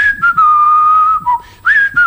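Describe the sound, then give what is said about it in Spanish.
A person whistles a military march tune with a clear, loud, pure tone, holding long notes and shifting pitch between phrases, with a couple of brief breaks. “Y silbando la marcha de San Lorenzo,”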